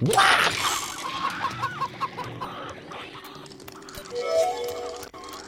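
Chickens clucking in a video game: several short, rhythmic clucks at a steady pace, heard alone with no talk.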